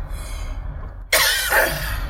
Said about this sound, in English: He's been coughing a lot this morning.